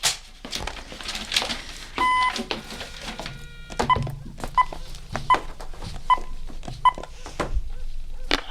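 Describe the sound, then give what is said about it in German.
A telephone's redial button is pressed, setting off a run of short electronic dialing beeps at a fairly even pace, with clicks and handling noise between them. “Das Telefon. Es hat eine Wahlwiederholung. Aha. Fragt sich, wen er zuletzt angerufen hat. Könnte interessant sein. Na los doch, drück auf den Knopf.”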